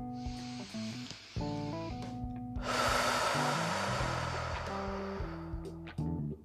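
Slow, deep breathing during a guided relaxation session, with long soft hissing breaths drawn over steady, gentle background music.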